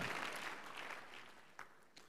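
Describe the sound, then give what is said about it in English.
Church audience clapping, fairly soft and tapering off, with a couple of stray claps standing out as the applause dies away. “Give the Lord Jesus a big clap offering.”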